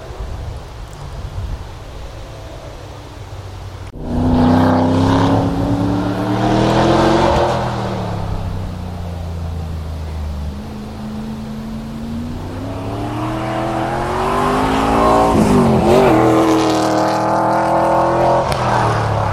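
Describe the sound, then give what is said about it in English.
An MG sports car racing on a track, its engine bursting in loudly after a quiet stretch and revving up and down in pitch. A second, longer climb builds to a strained peak before easing off. “That's the sound of an MG.”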